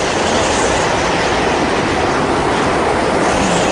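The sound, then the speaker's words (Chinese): Strong wind ahead of an approaching typhoon, a loud, dense, steady roar of rushing air that holds without a break from start to end. “台风要来了哦，风有点大哦。”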